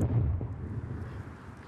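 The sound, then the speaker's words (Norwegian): A large car bomb explodes outside a headquarters building, heard as a loud, deep rumble that holds heavy and sustained and eases off slightly toward the end. “På samme tidspunkt smalt det like i nærheten. En stor bilbombe var gått av like utenfor hovedkvarteret til jødenes nasjonalråd”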